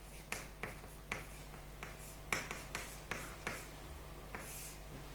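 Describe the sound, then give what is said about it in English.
A mathematical derivation written by hand: faint, irregular pen taps and short scratchy strokes separated by quiet pauses. “So let me write here again what I want to prove.”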